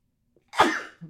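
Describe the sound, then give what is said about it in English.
A sneeze after pepper was sniffed up the nose: one sharp, explosive burst with a breathy, trailing hiss, followed by a brief faint breath, heard alone. “Man, we are just like cutting through all those sneezing fits. Yeah, I know. If anybody wonders why the last segment sounded so jarring, it's because this guy just put pepper up his nose.”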